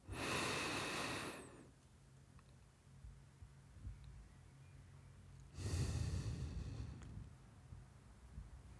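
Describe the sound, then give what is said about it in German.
Two slow, airy breaths come from a breathing exercise done with eyes closed. Each breath lasts about a second and a half, and a quiet pause of roughly four seconds separates them. There is no speech. “Und jetzt sollst du 4 Sekunden einatmen, 4 Sekunden halten und 4 Sekunden ausatmen mit geschlossenen Augen.”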